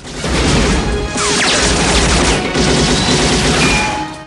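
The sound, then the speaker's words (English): Gunfire in a film shootout, with one man shooting at two others while they fire back amid flames. Loud, dense bursts of shots and crashing impacts run almost without pause throughout. “Forrest shoots a man in a green hat, then he fires at a second man. A man in a black beret and pale shirt fires at Forrest.”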